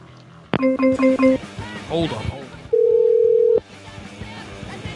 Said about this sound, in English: Hold on. It's got to be full silence when I dial.